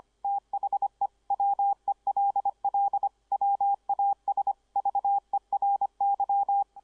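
Morse code sent at 25 words per minute: a single steady mid-pitched tone keyed on and off in rapid dits and dahs, crisp and fast, with no other sound.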